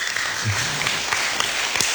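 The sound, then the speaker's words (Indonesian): Audience applause at a talk show event held at a senior high school, with steady, dense clapping throughout and a brief voice heard over it early on. “Tepuk tangan dong.”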